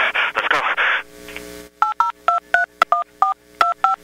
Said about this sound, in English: Some of the settings for DTMF recognition. So let me see if my fast dialing comes up on your side of the line.